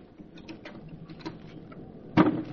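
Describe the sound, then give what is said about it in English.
Faint, scattered clicks and small creaks as a window is carefully eased open, followed near the end by one louder, short scraping burst. “Try to ease the window open.”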